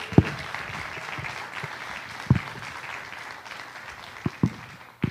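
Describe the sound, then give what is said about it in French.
Applause from a church audience: dense, steady clapping at moderate level with a few sharper low thumps scattered through it and no voices. “Alors, acclame très fort le Seigneur Jésus-Christ pour cela.”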